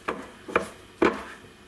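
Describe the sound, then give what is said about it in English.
Hands mixing yogurt and self-raising flour in a mixing bowl: three short, soft rubbing and squelching bursts spaced about half a second apart, with quiet pauses between them. “so put that in a mixing bowl and then you add 1 cup self-raising flour. Now all you need to do is mix it together. I usually just use my hands.”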